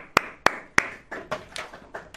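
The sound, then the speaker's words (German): Clapping for a team: three sharp, loud hand claps spaced apart, followed by a few softer, quicker claps that trail off. “Deswegen nochmal ganz großen Applaus an mein Team.”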